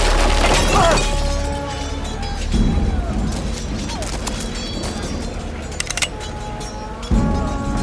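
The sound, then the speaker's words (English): Stairs collapsing under a limping man's feet: a loud crashing burst at the start, then further cracking and smashing impacts and a final heavy crash near the end. “As Lore limps to the mystery visionary, the stairs collapse under his feet.”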